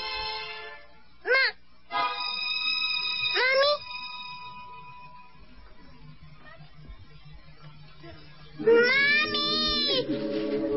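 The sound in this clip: A baby cries in wavering, high wails: two short cries early on, then a longer, louder stretch of crying near the end over a low steady hum.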